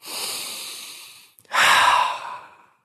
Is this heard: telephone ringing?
no

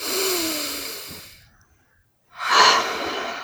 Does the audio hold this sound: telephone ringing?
no

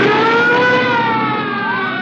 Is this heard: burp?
no

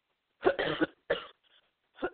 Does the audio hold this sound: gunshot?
no

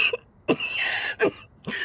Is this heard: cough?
yes

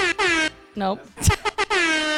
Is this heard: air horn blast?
yes

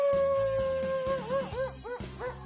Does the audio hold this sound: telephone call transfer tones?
no

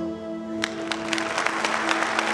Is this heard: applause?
yes

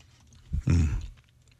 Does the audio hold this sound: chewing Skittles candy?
yes

